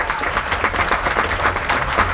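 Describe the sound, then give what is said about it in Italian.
Applause from an audience: a dense, steady patter of many hands clapping without pause for the whole stretch. “possiamo avere un applauso per questo messaggio veramente”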